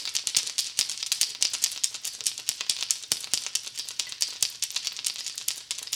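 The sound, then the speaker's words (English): A handmade wooden rattle, built from a wood dowel strung with wood beads and wrapped in hemp, is shaken. It makes a dense, continuous clatter of many dry, bright clicks in uneven bursts, moderately quiet and with no voices. “a wood rattle I made. This features a wood dowel, wood beads, and hemp.”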